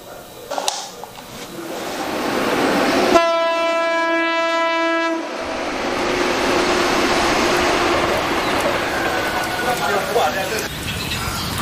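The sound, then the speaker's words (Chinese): A train passes along a railway line near a small clinic, a steady rolling rumble interrupted by one long, loud horn blast lasting about two seconds, after which the rumbling continues. “火车铁路，经常10多分钟就会有一辆火车过，火车那个声音噪音很大的”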